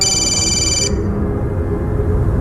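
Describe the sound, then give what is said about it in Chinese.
A telephone rings with a high, bright electronic tone that sounds alone for a moment and then cuts off, leaving only a low, steady background noise. “这时李永琴的电话响了。”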